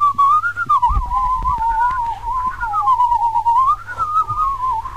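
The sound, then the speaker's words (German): A person whistling, presented as two-part whistling: one clear, wavering high tone carries a slow melody through the whole clip, steady in loudness, with no talk. “Ja, dann kann man nämlich zweistimmig pfeifen. Eben. Ich kann das nämlich auch.”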